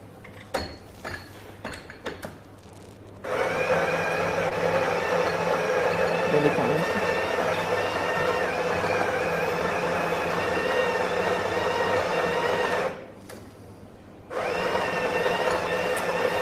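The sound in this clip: An espresso machine brews coffee. After a few clicks, a steady mechanical pump hum sets in, breaks off briefly near the end, then resumes.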